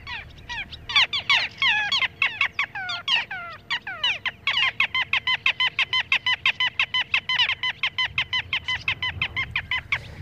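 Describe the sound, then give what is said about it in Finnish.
Little gull calls recorded in late summer in 1984 beside a field near Kutajärvi lake in Hollola, by a small wastewater settling pond: many sharp, nasal, high notes, tumbling at first and then settling into an even, rapid repeated series. “Tämä pikkulokkiäänite on tehty Hollolan Kutajärven tuntumassa vuonna 1984.”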